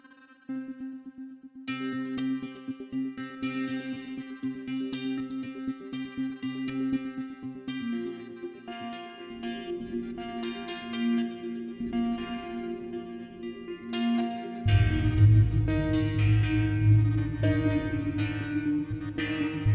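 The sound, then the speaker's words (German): Electronic music-production sounds with reverb applied per sound: sustained, echoing synth tones ring out with long washy tails, and a heavy low bass layer joins toward the end. No talking. “Und hier ein bisschen Reverb.”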